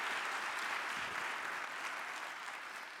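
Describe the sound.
A church audience applauds to welcome a guest speaker, a dense, even patter of many clapping hands that holds steady and eases slightly toward the end, fairly faint throughout.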